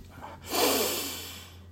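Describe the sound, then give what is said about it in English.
A single deep breath taken during a guided breathing exercise, a soft airy rush that swells quickly and then slowly fades over about a second, faint and with no talk over it. “Nice, deep breath. And we'll do this a couple of times.”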